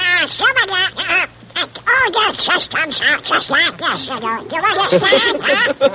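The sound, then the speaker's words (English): A man's voice imitates a quacking cartoon duck, a rapid stream of buzzy, nasal, squawking syllables that runs with brief pauses for about six seconds. “When you were imitating Donald a moment ago, I saw you puff out your cheeks in your adenoidal passages, and they didn't seem to wiggle at all. Well, whether I wiggle my nose or puff out my cheeks, it sounds like this.”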